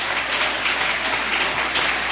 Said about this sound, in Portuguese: Se assenta, desocupa suas mãos e exalta Cristo com palmas.